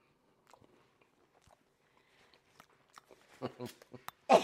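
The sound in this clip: Someone bites into a cake and chews, the soft, moist bites growing louder toward the end, where a stronger burst stands out.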